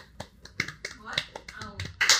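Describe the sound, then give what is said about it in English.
Sparse, scattered claps from a small audience at the close of a recorded show, sounding as separate sharp smacks with a fuller burst near the end, mixed with people talking. “Tapos, palakpakan po natin ang ating audience today.”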